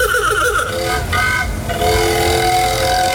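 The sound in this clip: A 1910 Model T Ford petrol engine, 116 years old, running: a continuous, loud, rattling drone with steady buzzing harmonics that grinds evenly throughout.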